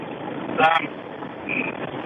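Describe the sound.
A car drives on the road past Port Macquarie, where the surface is dry only in places after heavy rain, giving a steady broad rumble of road noise with a brief voice heard over it.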